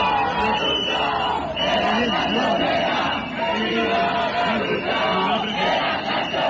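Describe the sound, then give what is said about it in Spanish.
Protest crowd in Albacete, Spain, chanting over housing, a continuous mass of voices shouting slogans together with a rhythmic swell and dip, loud and unbroken throughout. “Es el sonido, como decimos, de esas protestas. La protesta, la más numerosa, tenía lugar en Albacete.”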